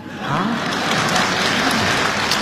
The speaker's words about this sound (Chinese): 说实在，大家鼓掌还有一方面意思。